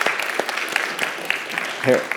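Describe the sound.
Scattered applause from a church audience honoring a longtime charter member, light and uneven claps mixed with voices talking throughout.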